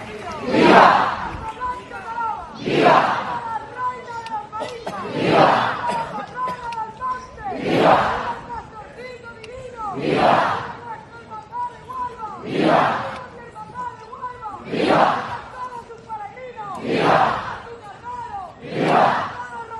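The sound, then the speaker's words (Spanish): Crowd of pilgrims from the Hermandad del Rocío de Huelva on the Rocío pilgrimage route raises loud, rhythmic collective cries, swelling into regular bursts about every two seconds over a steady murmur of many voices. “Son los sonidos de la Hermandad del Rocío de Huelva en uno de los puntos estratégicos”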